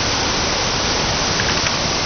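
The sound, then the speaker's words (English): Aerated effluent water rushes through a treatment plant's effluent flume and metering point on its way to a receiving stream. It makes a constant, dense, hissing roar with no pauses and no voices. “Going through here. This is our effluent flume. This is our meter. This is where we meter our effluent water is going to the receiving stream.”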